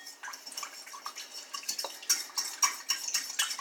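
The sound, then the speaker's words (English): A yeast mixture is stirred in a mixing bowl, making faint, irregular wet swishes and soft clinks of a utensil against the bowl, with no voices. “So now we're going to stir around the yeast mixture again.”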